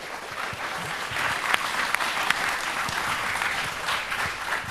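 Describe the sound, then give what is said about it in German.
Audience applause: many people clap in a dense, steady patter that stays fairly soft and even for about five seconds. “Applaus für alle davon.”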